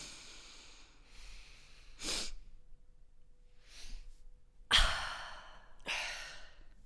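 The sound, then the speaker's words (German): A person demonstrates the physiological sigh breathing technique: a few breathy, audible inhales and long sighing exhales, some sharp and forceful, with quiet gaps between them and no talking. “das nennt man irgendwie so einen physiologischen Sigh, also physiologisches Seufzen. Aha. Und es geht, also ich mache es mal kurz vor, also ich mach so.”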